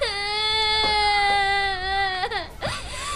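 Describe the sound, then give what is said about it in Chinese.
A child cries loudly in one long, sustained wail that holds steady and then dips. Near the end it breaks into short, choppy sobbing catches. “别哭了，别哭了。”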